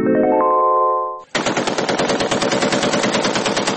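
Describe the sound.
Rapid automatic gunfire from a gun: a steady tonal sound cuts out, then a sustained, very loud burst of many fast shots fires in an even rhythm to the end.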